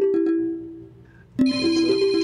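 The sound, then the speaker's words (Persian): A phone ringtone sounds: sustained electronic tones hold one pitch, then jump abruptly into a brighter, louder passage of layered synthetic notes that continues to the end. “کیه داره الان زنگ میزنه”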